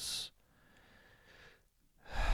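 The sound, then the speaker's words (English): A voice imitates biting into a crunchy pizza slice with two short, breathy hissing bursts, one at the start and one at the end, separated by near silence. “it was my attempt at an impression of a pizza, a crunchy pizza, a slice, and you pick it up and you put it in your mouth”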